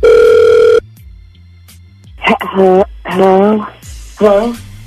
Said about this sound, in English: We're going to call her right now, okay?